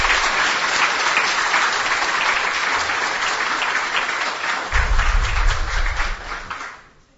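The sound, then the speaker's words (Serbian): Audience applause at an event, a dense steady wash of many hands clapping for several seconds, loud and continuous before tapering off at the end, with no voices over it. “Molim vas, jedan veliki aplauz za sve nas.”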